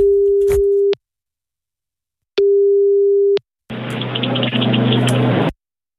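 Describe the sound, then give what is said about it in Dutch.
Telephone call tone while a number is being called: two steady, mid-pitched beeps of about a second each, separated by a silent gap. A burst of noisy, hissing line sound with a low hum follows. “We hebben zijn nummer. We zijn nu aan het bellen.”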